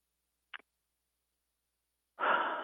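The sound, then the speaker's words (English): A person takes a deep breath: a faint brief click, a long stretch of silence, then one loud, breathy rush of air that holds to the end, with no talk. “wow, I've taken a deep breath.”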